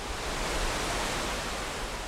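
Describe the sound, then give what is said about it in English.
Rushing water of the Mendenhall River racing behind a flood wall, a steady, dense, unbroken roar that holds the same level throughout, with no voices. “The new flood wall blocks her view, but you can hear the water racing behind us.”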